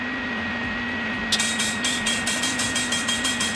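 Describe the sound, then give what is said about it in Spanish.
The clock of the Torre de San Miguel tower in Vitoria, where a rapid, regular mechanical ticking starts after about a second and continues evenly over a constant low hum. “Este sonido es el del reloj de la Torre de San Miguel, el relojero Alfonso Suescun, el que se encarga de que esté en hora para cuando tenga que dar las 6 de la tarde para que baje Celedón.”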